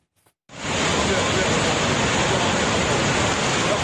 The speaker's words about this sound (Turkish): Bartın'da ise fırtına etkili oldu. 5 katlı binanın çatısı araçların üzerine düştü. O anlarda güvenlik kamerasına yansıdı.